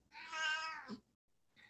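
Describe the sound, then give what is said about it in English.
A 20-year-old cat meows once, a long, high, tonal call with rich harmonics, then gives a short, fainter second call after a brief pause. The sound is quiet overall, with no voices. “if you hear a cat in the background”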